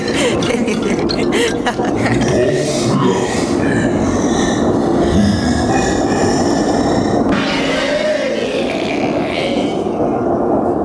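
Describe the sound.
A train running on rails: a continuous loud rumbling clatter with a dense, hissing wash of noise that holds steady throughout, without clear pauses.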